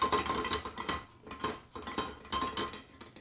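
Faint clinking and scraping of a utensil against a pan while chipotle garlic seasoning is stirred in, coming in short, irregular bursts separated by brief pauses.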